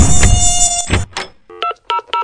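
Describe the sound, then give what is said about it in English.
Mosquitoes buzzing in a high, steady whine for about a second, then a few short telephone keypad tones at uneven intervals. “Can you come spray my yard for mosquitoes? If you can't be outside because of the mosquitoes, call Wolf and Sons”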